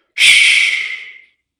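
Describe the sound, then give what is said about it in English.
A single sharp breath during rapid breathwork: one loud, airy rush of breath lasting about a second, then silence. “The way I do it is it would be something like this. I will probably get dizzy because I am standing right now, but here we go. For 50 breaths, then exhale.”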